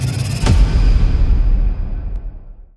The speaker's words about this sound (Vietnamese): Chiếc xe tải bon bon lao đi trên đoạn đường quốc lộ trắng tạch.